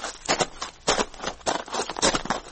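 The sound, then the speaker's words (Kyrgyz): Footsteps on a stone road, many steady, evenly spaced steps with a hard scuffing tread that repeat without stopping. “Таш жолдо бараткан кадам уламдан улам жакындап, бирок соңуна чыкпай тынымсыз кайталана берет.”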